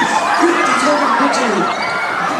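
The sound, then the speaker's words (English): Theme park audience at Epcot's Honey, I Shrunk the Audience show screaming as the mice effect moves through the seats, a loud, continuous mix of shrieks and shouting voices. “So you're like, why is everyone in the front screaming?”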